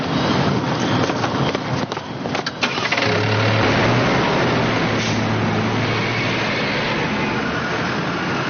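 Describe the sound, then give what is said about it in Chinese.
A car engine hums while driving on a road trip, giving a dense, continuous rushing drone with slight fluctuation early on, then settling into an even, steady roar. “我现在和李院长在一起，我们现在开车前往秀山岛。”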